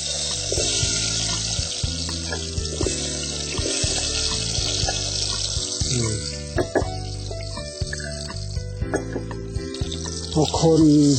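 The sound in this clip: Ingredients sizzle as they fry in hot oil, a steady bright hiss running through the whole clip while a voice talks over it.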